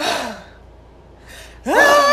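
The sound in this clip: A person vocally imitates a crying baby catching a gasping breath. A breathy, falling sound comes first, then a quiet stretch, then a sudden louder voiced wail that rises in pitch.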